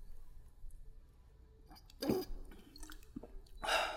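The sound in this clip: Quiet sips and swallows of water from a Tupperware bottle, faint mouth noises with a few louder gulps rising briefly above a soft background.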